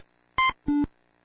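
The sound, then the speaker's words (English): Three short electronic blips from the 1980s video game Breakout, played by an AI: a higher buzzy tone, then a lower, slightly longer one, then another higher tone, each crisp and evenly loud against silence. “This is the sound of Breakout, a 1980s computer game.”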